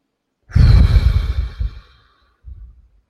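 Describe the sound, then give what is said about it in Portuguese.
A deep breath taken during a calming breathing exercise for anxiety: one long, airy exhale like a heavy sigh, followed by a shorter, softer breath after a brief pause. “Para, quebra esse padrão, respira profundamente. Inclusive, te proponho a fazer isso agora.”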